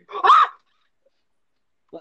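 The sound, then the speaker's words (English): A dog gives one loud, mid-pitched bark near the start, followed by silence and a faint, brief sound at the very end. “What the fuck? That was my dog.”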